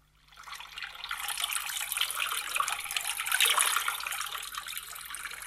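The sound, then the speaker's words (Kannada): Water running from a tap: a steady, moderately faint hissing gush that swells in after about a second and continues without a break to the end. “Kittu ಏನ್ ನೀರು ಬಿಟ್ಟಿಪ್ಪ ಕಿಟ್ಟು?”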